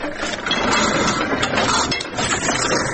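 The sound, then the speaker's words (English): A motorless, foot-operated Platen letterpress machine, about 360 kilograms and nearly 100 years old, printing designs on paper: continuous clattering, clinking and ratcheting of metal parts, busy and uneven throughout. “The company uses a 360-kilogram Platen letterpress machine to make its creative designs.”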